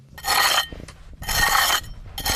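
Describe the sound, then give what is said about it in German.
A trowel scrapes soil from the walls of a half-metre-deep pit at the excavation of a Celtic farming village in the Eifel, making three loud, gritty rasping strokes separated by short pauses, with no voices. “Mit einer Kelle schabt er die Wände ab und legt Millimeter für Millimeter die Überreste eines Gebäudes frei.”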